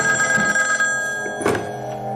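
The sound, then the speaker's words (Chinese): A telephone rings with a steady electronic tone, joined by a dull thunk near the middle. “暗中跟踪春三的特务马上给高斌打来电话。”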